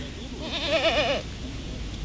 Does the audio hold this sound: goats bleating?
yes

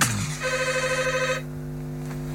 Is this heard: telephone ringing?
yes

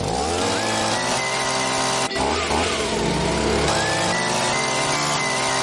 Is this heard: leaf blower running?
yes

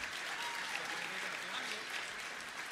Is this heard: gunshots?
no

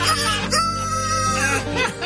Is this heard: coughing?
no

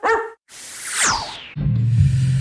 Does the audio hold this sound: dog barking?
yes

